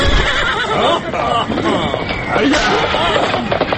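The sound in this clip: Horses whinnying as riders mount up to set off toward a bathhouse, with clip-clop of hooves mixed into a dense, continuous layer of background sound throughout.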